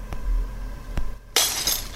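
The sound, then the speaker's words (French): An iPad tablet is smashed: two brief dull thumps come first, then a loud, sustained crunching burst of shattering glass that fills the rest of the moment. “Pour être sûr que je ne sois plus tenté, je vais casser l'iPad.”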